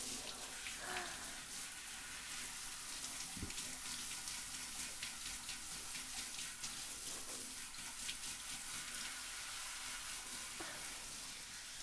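Water runs steadily to rinse hair during a hair wash, a continuous hiss that stays even from start to finish with no voices over it.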